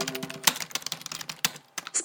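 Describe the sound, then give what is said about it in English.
Rapid typing on a computer keyboard, with many crisp keystrokes clattering in quick, uneven succession and a few heavier strikes standing out, with no voices. “Let me type in some text.”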